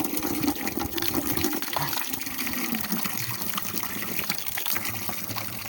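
Water runs from a small drinking fountain in a steady, continuous gushing stream, fairly loud and even throughout, with no talking.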